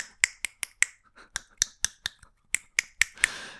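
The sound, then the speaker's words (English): Crisp, sharp snap-like clicks come from a single finger clapping against the hand without the thumb. Twelve dry, evenly spaced pops fall in three quick groups of four. “And one thing you guys don't know about me is that I can clap with one finger. Okay? So to demonstrate, you can't see this, but”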